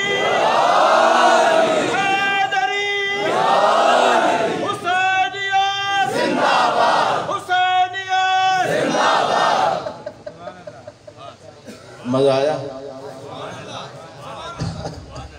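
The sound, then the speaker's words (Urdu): A crowd shouts its reply to the Nara-e-Haidari slogan in several loud, unison bursts of raised voices. The shouts give way to quieter, scattered voices toward the end. “ایک نعرہ لگاتا ہوں، آپ جواب دے دیجئے گا. نعرہ حیدری”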